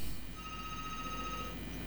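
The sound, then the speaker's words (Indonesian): Telephone ringing tone before a call is answered: a steady tone of about one second with fainter overtones, sitting low over constant hiss and line noise. No one speaks. “Kita angkat Bu, teleponnya yang diangkat ya.”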